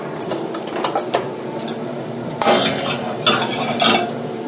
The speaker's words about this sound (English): so I'm going to take my pan, a muffin pan, and I'm going to put it in the oven.